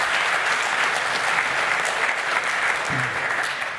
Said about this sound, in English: Could we get a huge round of applause for the three people who worked on that for the first session of the Lightning Talks?